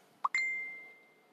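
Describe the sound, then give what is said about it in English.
Facebook group post notification ding on a device: a short soft plop followed by a bright, clear chime that rings out and fades over about a second, faint and alone. “Those noises you hear, if you can hear it, that bing, bing, that's people posted in my groups.”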